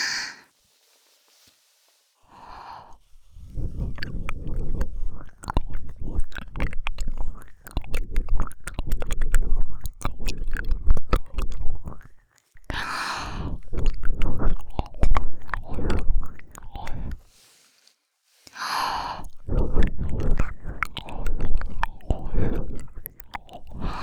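Close, wet mouth sounds of someone biting and chewing on an ear in ASMR style: crackly nibbling and mastication in several long bursts, broken by short pauses with a few soft breaths.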